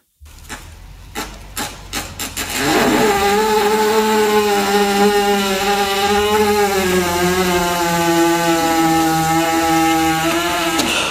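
An engine kickstarts with a few short, sputtering bursts, then catches and runs on as a loud, steady, buzzing drone with a rough, rasping edge.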